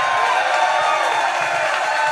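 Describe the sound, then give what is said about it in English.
A live show audience cheers and claps in a continuous crowd roar, with voices and hands blending into an even, energetic wash. “Come on, clap it up.”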